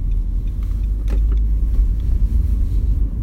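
Low, steady rumble of a car driving along a road, with a few faint knocks and rattles from inside the vehicle and no talking.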